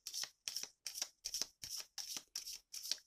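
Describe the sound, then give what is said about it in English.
Playing cards are shuffled and pulled from a deck during a card reading. Eight even, crisp bursts of riffling card noise come in a steady rhythm with short gaps of silence between them. “I'm going to pull some other cards.”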